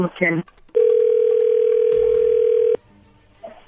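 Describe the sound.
A phone line sounds one long, steady ringback tone as a call is placed, a single sustained mid-pitched beep lasting about two seconds, with brief voices before and after.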